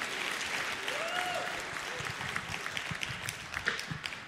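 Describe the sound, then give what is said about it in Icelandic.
Audience applause at a band competition concert: dense, steady clapping that goes on for the whole stretch, fairly faint and even. “gefum þeim gott klapp og verið nú öll svolítið vel með í klappinu í allan dag”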